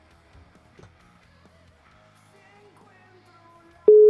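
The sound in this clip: Telephone ringing tone on an outgoing call: after near-silence with faint low noise, a loud, steady mid-pitched tone starts abruptly at the very end and holds.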